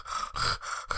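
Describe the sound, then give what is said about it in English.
A voice imitates a two-year-old toddler's labored breathing through a nose blocked by something stuck inside it. There are a few quick, rasping, snuffly breaths in close succession, quiet and alone. “he used to breathe like this.”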